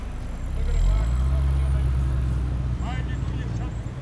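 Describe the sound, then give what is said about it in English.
Street traffic rumbles through a commercial shopping neighborhood: a steady, dense low drone of passing cars, with faint higher noise above it and no single vehicle standing out. “Hear that? That is the sound of a commercial neighborhood, or the part of town where people do their shopping and spend money.”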